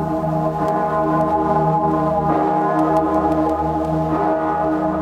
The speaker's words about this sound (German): Im Dom zur Erfurt in Thüringen klingt hoch im Nordturm die Stimme einer altberühmten Glocke, gegossen im Jahre 1497.